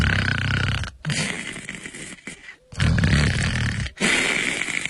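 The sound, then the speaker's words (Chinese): A storyteller imitates light snoring for a man lying face down on the ground with cuffed hands: loud, rasping breaths in several long stretches separated by brief pauses. “正在那打小呼噜呢”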